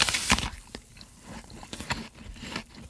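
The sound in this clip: A crisp bite into a big Red Delicious apple, followed by a few sharp, fairly faint crunches of chewing at uneven intervals, with no talk.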